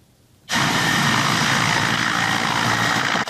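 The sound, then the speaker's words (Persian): A Ukrainian Mi-8 helicopter in flight during the war with Russia: a loud, steady roar of engine and rotor that cuts in abruptly after a brief quiet start and holds constant to the end. “در جنگ با روسیه اوکراینی ها از چرخ بالی می-8 استفاده میکنند که با موشک های هدایت نشونده مسلح است.”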